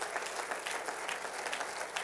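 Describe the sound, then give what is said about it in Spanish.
A church audience applauds during a Spanish-language service, dense and even clapping that holds at a steady, fairly soft level throughout. “¿Le pueden dar un aplauso al Señor? Denle otro aplauso.”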